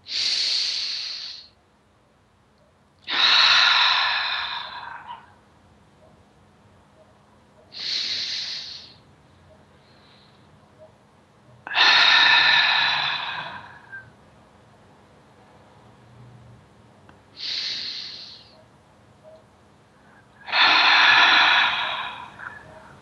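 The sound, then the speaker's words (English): Slow, deep breathing during a guided meditation: three full breaths in and out, heard as six airy, hissing swells. Each swell rises and fades, separated by quiet pauses. “deep breath and have it come right down and fill your belly so your belly sticks out. And the breath goes right down to your perineum. And then you breathe back out. Are you ready? We're going to do three of those.”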